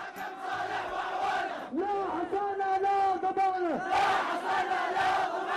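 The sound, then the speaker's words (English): Angry protesters in Yemen chant and shout as a crowd, loud overlapping voices with a long sustained yell rising out of the mass midway before the crowd noise resumes. “The voice of Hillary Clinton there being drowned out by our control room director here by protesters yesterday. It's a sound of angry citizens you're hearing in Yemen yesterday”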